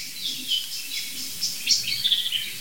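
Blackbird and song thrush singing. Soft, continuous high twittering phrases overlap throughout at a fairly even moderate level, with a few brighter notes toward the end.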